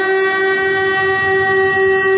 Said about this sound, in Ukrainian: Чергова сирена лунає просто під час урочистостей, та зал залишається повним.